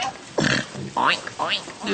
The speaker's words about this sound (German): Er spielt mit den kleinen Ferkeln.